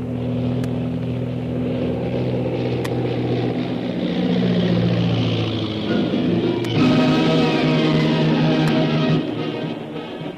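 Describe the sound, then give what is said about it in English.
Radio-drama effect of a powerful seaplane flying and landing: a loud, continuous engine drone whose pitch and tone shift throughout, with a few faint clicks. “As the powerful seaplane bearing Shanghai Lil and her captors, Karnak the Killer and Koa, made a safe landing.”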